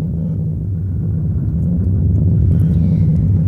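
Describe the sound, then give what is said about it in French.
A storm rages as a loud, steady, low-pitched rumbling roar that holds throughout with no clear breaks or distinct events. “quelle tempête!”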